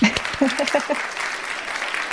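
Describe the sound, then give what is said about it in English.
Applause for a guest on a finance show: a steady patter of many hands clapping at moderate loudness, with a short voice and a few brief tonal blips near the start. “So let's just take a moment, and maybe we could do this even in post and give a round of applause to Ella.”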